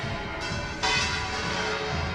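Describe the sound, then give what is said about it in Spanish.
Cathedral bell-tower bells ring out from the Giralda in Seville during a ceremonial military honours event, with a couple of fresh strikes adding to a faint, sustained metallic ringing wash. “Esta Giralda que no cesa, que toca, que no dejan de tocar sus campanas.”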